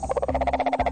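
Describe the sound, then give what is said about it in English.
A cane toad calls with a rapid, even trill of low buzzing pulses that run steadily for about a second, with no other sound. “We're talking about cane toads.”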